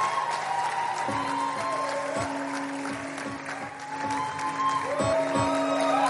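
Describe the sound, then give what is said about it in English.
Audience applause welcoming a speaker to the stage at a midweek church service: continuous dense clapping noise throughout, with sustained musical tones underneath. “Give it up for Ms. Tokwe Akinbode.”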